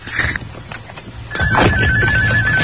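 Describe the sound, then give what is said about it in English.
A mobile phone rings with a steady high electronic tone that starts about halfway through and continues to the end, over a louder low rumbling background. “What the hell is that? That's RJ's phone.”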